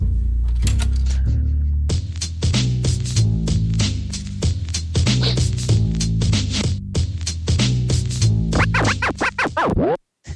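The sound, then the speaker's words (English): Scratching noises made for a short show jingle rip through in rapid rhythmic strokes over a beat, ending in quick sweeping scratches and a brief dropout. “Did you make those scratcher noises yourself, Denise? I did not. Our intern last summer, Franklin Graves, made the bumpers that we use for the show”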